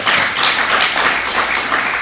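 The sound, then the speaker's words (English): Audience members clap during a personal talk about faith and a dying father, a dense, continuous patter of applause at a steady level. “I really hope that you're clapping for God, because that's who did that, honestly.”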